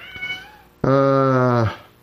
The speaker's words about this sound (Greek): γάτα κλαίει, ξέρει που λέμε αλήθεια τώρα, και κλαίει τα χάλια μας